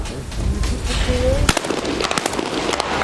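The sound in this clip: Shotgun blasts at a double trap shooting event ring out as a few sharp, loud cracks in quick succession, following a stretch of talk at the start.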